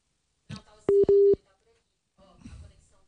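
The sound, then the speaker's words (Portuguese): Telephone dialing to reconnect a dropped call: two short, steady electronic tones in quick succession, with faint background noise before and after. “Alô, caiu a conexão. Estamos tentando ligar de novo para o Bernardo Belo Franco”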